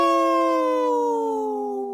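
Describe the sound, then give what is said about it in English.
A person howls in imitation of a wolf, one long, loud, sustained voiced tone that slides slowly downward in pitch for about two seconds, with nothing else heard. “See how I said no and howled at the same time?”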